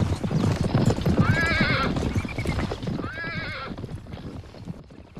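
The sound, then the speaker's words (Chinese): Horses gallop with a steady, rapid clip-clop of hooves as riders race to reach a house outside Fengtian's northern outskirts before dusk. Two high, wavering whinnies rise over the drumming hoofbeats. “咱兄弟们，快，再快点！就算把马跑断了，也要在黄昏前赶到索三爷家。驾！”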